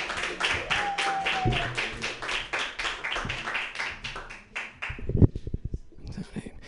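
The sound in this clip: Scattered audience clapping at a San Francisco comedy open-mic night as the next comedian is introduced; fairly faint, uneven claps that thin out, with a burst of sharper hand claps near the end.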